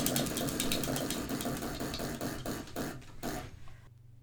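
A prize wheel spins with rapid ratcheting clicks that start fast and dense, then space out as it slows, stopping near the end; no talk.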